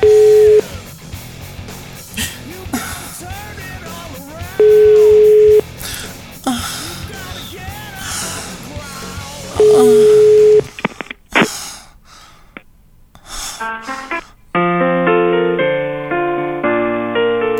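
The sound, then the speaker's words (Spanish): Phone call tones sound as a call is diverted. Three loud, steady beeps are separated by voices and noise, and a run of stepped electronic tones follows. “Desvió la llamada, desvió la llamada.”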